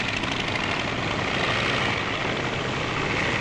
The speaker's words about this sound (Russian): Пропеллер набирает обороты